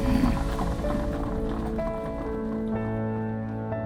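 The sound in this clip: A horse-drawn carriage travelling through a park, heard as a steady, continuous clatter of hooves and rolling movement beneath sustained tonal sounds, at an even level throughout.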